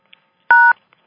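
A single telephone keypad tone mutes callers on a conference line: one short, clear two-pitched beep of about a fifth of a second, framed by a few faint clicks in otherwise quiet surroundings.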